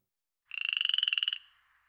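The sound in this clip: A frog croaks once, a single rattling trill of rapid, evenly spaced pulses at a fairly high pitch. It lasts under a second, then tails off quickly into silence.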